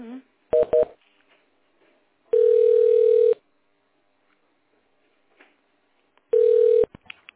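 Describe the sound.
A telephone call being transferred: a quick burst of keypad dialing beeps, then two long steady ringing tones separated by a few seconds of near silence, ending with a faint click.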